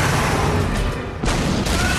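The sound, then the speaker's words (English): Breaching charges blow open warehouse doors during an armed team raid. The blast is dense and booming, a continuous roar that briefly eases, then surges again with sharp new bursts. “The jeep crashes through the exploding doors and armed SWAT teams flood into the warehouse.”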